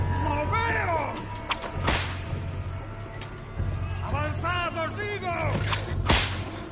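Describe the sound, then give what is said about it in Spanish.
Whip lashes crack as slaves carrying an emissary are driven down a narrow gorge, a few sharp snaps cutting through shouting and strained voices. “Un emisario desciende por el angosto desfiladero es transportado por esclavos a golpe de látigo.”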